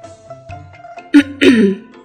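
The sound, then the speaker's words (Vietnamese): A voice imitates a light, dry cough: two short, breathy bursts in quick succession that rise above soft, low background tones. “Phu tử nhẹ nhàng ho khan một tiếng”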